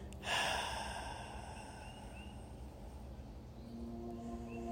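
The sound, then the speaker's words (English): A slow, deep exhale out of the mouth during a guided breathing exercise, a soft, breathy rush of air that swells briefly at the start and then trails off quietly. “And exhaling slowly and deeply and fully out of the mouth.”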